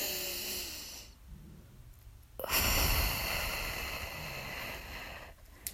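Deep breathing during a guided relaxation exercise: a soft, quiet intake of air followed by a long, loud, airy exhale that slowly fades away.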